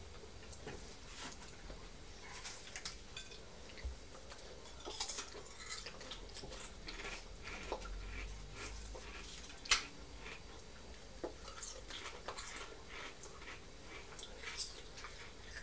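A child eats coleslaw and cheese from a plate with a spoon, making scattered faint clinks and scrapes of metal on crockery. They are irregular and soft throughout, with one sharper clink partway through.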